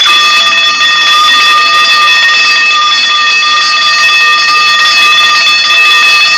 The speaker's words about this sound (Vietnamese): Các cô y tá nghe thấy tiếng chuông ở bên này bèn chạy vào.